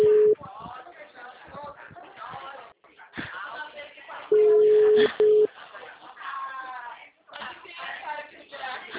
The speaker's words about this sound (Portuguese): Acho que a ligação caiu.